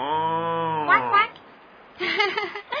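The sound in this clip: A bull moos in a low, drawn-out harmonic tone lasting just under a second, followed by a voice speaking.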